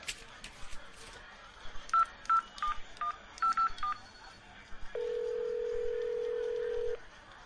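Telephone keypad dialing a number in an office: several clicky key presses, then a run of short, evenly pitched beeps at an uneven pace, followed by a single long, steady tone.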